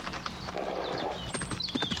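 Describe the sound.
Hoofbeats of a horse galloping past on a town street, its rider bent low in the saddle: a rapid, continuous run of many clip-clop strikes, fairly loud and steady throughout.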